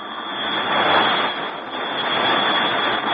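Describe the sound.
Engine firing at maximum thrust during a slow vertical descent: a dense, continuous roaring rush with a thin high whine on top, loud and steady for about three seconds, with no voices.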